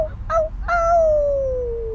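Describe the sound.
A person howls to call a group back, the voice imitating an animal howl: a short call, then one long sustained tone that glides slowly downward in pitch, fairly loud throughout.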